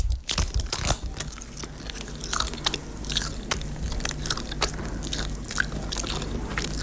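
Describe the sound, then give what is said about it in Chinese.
A small vacuum pack of ejiao paste with black sesame, walnut, red dates and goji is torn open and eaten, with a burst of noise at the start followed by many crunchy bites and chewing. “姐你来先尝一口，咱先不多说。 哦，今天拿来了哈。 嗯， 这一小袋真空包装的啊，干干净净的，来撕开。”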